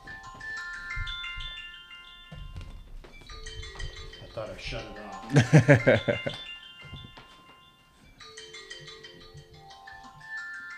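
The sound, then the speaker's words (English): A mobile phone ringtone plays a repeating melodic pattern of electronic tones. Speech carries on over part of the ringing. “That's my phone's ringing.”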